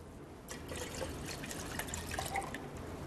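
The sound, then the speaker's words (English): One liter of water is poured in as a soup base, giving a soft, steady splashing trickle that stays quiet throughout, with no talk. “We're going to put in 1 liter of water”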